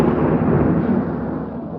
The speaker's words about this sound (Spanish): Densos nubarrones de tormenta oscurecen más el cielo y fulguran a cierta distancia los relámpagos.